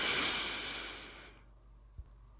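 A slow breath drawn in through the nose during a guided relaxation exercise: a soft, airy hiss that swells and then fades away over about a second, followed by a single small low thump.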